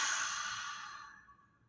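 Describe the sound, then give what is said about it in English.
A single deep breath is exhaled as a soft, breathy hiss. It starts fairly strong and fades steadily to silence in under two seconds. It is faint and heard alone. “Then Jesus took a deep breath and breathed into them.”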